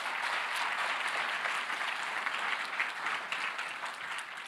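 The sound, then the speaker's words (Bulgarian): Applause in a church: dense, steady clapping from an audience that fills the whole stretch at an even level and eases off slightly at the very end. “Ръкопляските на Жоро, докато сядат.”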